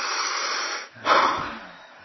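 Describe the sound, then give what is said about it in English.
Breathing through the nose as a long inhale, a soft airy hiss that briefly breaks off, then resumes louder and gradually fades, with no talk. “So listen to this. Inhale. Exhale, right? Inhale.”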